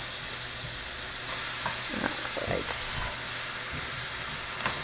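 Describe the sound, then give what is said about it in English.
Ground beef sizzles in a pan over high heat with whole cloves mixed in, a steady hiss of frying broken by a few scraping knocks as the meat is stirred and broken into chunks. “I'm going back to stir my ground beef now.”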